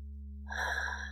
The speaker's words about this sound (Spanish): Inhala una vez más